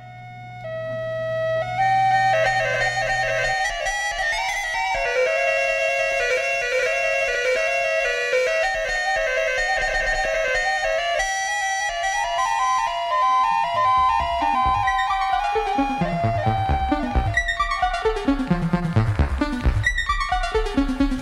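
An Electronium electronic music instrument plays a bright, sustained synthetic melody with layered tones over a low drone, then shifts into busier, rapidly pulsing low notes toward the end.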